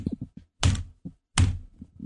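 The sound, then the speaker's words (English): A head banging against a broadcast console: two loud, dull thunks stand out among several softer knocks and taps. “That is me banging my head against the console.”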